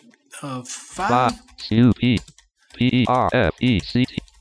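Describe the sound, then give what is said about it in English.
Typing on a computer keyboard, with clicky key presses mixed in with a person talking throughout. “Now I've cleared out that search field. Let's type in”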